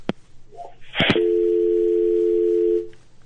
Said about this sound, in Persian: متاسفانه که در دقایق آخر برنامه تماس ما با بانو مهمن قطع شده.